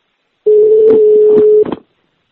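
Telephone being dialed to call the police: a loud, steady dial tone with button clicks over it, cut off after about a second by a short rattle.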